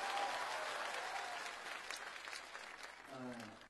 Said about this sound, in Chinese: 掌声送给两位老师。